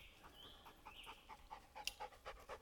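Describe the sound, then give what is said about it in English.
A dog pants after running up a trail on a warm early June day, with quick, rhythmic breaths that stay faint and steady throughout. “I stopped it because I was giving my dog some water. Here he comes running up the trail.”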